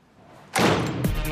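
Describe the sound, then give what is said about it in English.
A door swings shut with a dull, heavy thud, followed shortly by a second bump, heard alone without voices. “Concern is etched on her face as she closes the door.”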